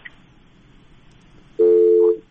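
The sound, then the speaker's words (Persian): Telephone busy tone after a call drops: low line hiss, then one loud, steady, even tone lasting over half a second. “فکر میکنم تماس ما قطع شد.”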